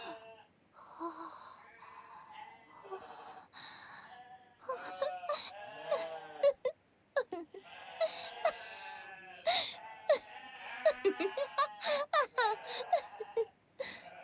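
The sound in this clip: Sheep bleating with low, thick, deep voices: many overlapping wavering calls of varied pitch in close succession, some drawn out and some short, growing busier after the first few seconds.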